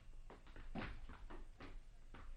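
A door being opened for arriving guests: a few faint, soft clunks and rattles of the latch and door, quiet and uneven.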